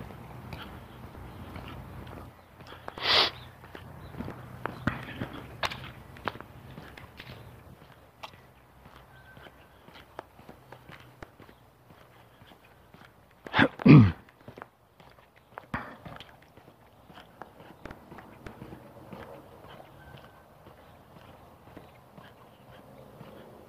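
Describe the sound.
People walking produce many soft, uneven footsteps over a quiet background, with a couple of brief, louder knocks standing out among the steps.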